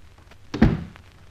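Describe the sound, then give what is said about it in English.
A door is shut with a single dull, low thunk that is short and stands alone against a quiet background. “Shut the door.”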